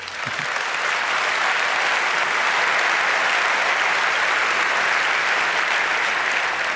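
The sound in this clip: A crowd applauds as a speaker is introduced for a talk, a broad, unbroken rush of clapping from many hands that stays loud and even across the whole stretch.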